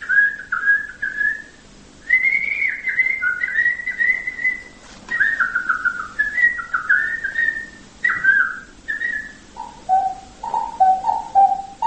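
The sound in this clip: A person whistling in imitation of birdsong: many warbling, sliding phrases separated by short pauses, the last phrases dropping to a lower pitch, with no talk.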